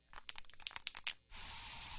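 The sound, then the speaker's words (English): Bug spray is used in a home: a string of sharp clicks and rattles gives way to a steady, bright aerosol hiss that continues to the end. “So you just used bug spray in your home.”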